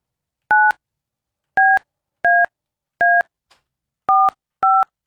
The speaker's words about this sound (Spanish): Vamos a marcarle.